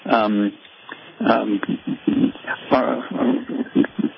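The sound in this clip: A small dog gives short whimpers and yips, heard mostly under a person talking steadily throughout.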